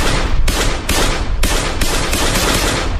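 Gunfire in security camera footage from a street in Diyarbakır at night, as a gunman empties a magazine at a jewellery shop: loud, rapid shots pile into continuous harsh bursts that keep going with no break.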